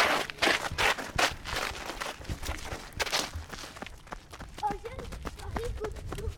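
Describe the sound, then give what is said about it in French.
Children run at a school toward its canteen, their footsteps a quick, uneven patter of many light thuds, fading somewhat after the first few seconds, with faint voices near the end. “Là, on court.”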